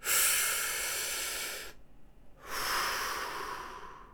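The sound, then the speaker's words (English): A man takes a deep breath before a pole-vault jump. A long, loud hissing inhale lasts under two seconds, then a short silent pause, then an equally long, breathy exhale. “Montana El Diablo took a deep breath. It sounded like this.”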